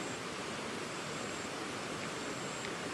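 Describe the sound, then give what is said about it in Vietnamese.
Steady rushing water flows without a break, a dense even hiss with no distinct splashes and no voices, used to accompany a guided sitting practice. “Rồi chúng ta bắt đầu nước chảy, nước chảy. Chúng ta nhớ là ngồi đối diện với thượng nguồn,”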